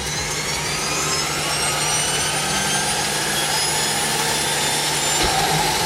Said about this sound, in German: Wir starten die Propeller.